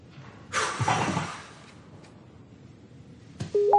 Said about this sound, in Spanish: Entran mensajes para Charon 4.